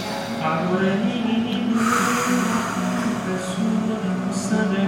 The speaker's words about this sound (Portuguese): com esse soprinho que nem um canudinho na boca, a oxigenar e a pensar melhor